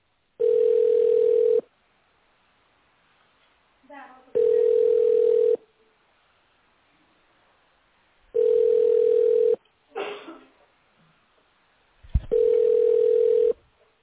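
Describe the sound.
Telephone ringback tone on an unanswered call: four long, even beeps at a steady mid pitch, spaced by a few seconds of quiet, with brief voice fragments in some of the gaps.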